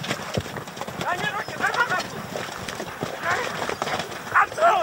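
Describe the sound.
Horses' hooves pound during a mounted goat-carcass game among villagers, a busy, irregular clatter of many hoofbeats with a voice talking over it.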